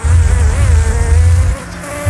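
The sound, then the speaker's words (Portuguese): A bee buzzing sound effect plays as a loud, continuous insect drone with a slightly wavering pitch. It drops in level briefly near the end, then swells again. “Abelha, coloca o som da abelha, vai.”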